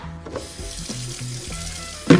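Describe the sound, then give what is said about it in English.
Cold tap water runs over a cut head of leafy vegetable in a sink, a steady hissing stream with a few soft knocks. A louder splash comes at the end. “Nice cold rinse.”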